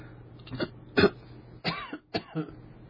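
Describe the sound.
A person clears their throat and coughs in a few short, rough bursts, fairly faint against a low steady hum.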